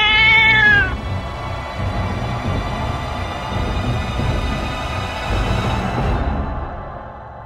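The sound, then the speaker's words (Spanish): A cat meows in a basement that holds old furniture and a boiler: one clear, high meow at the start, then a long, rough, droning wash of sound that holds steady and thins out near the end. “Entonces, desde algún lugar de las sombras, escuchás el maullido de un gato.”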